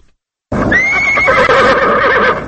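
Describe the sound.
A horse at Afghan president Hamid Karzai's stable gives one loud whinny after a moment of silence. The high, quavering call holds for about two seconds before easing off.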